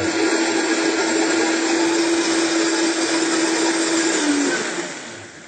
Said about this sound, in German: Das klingt schon ganz, ganz sanft jetzt, ne? Weil schon alles zermixt ist.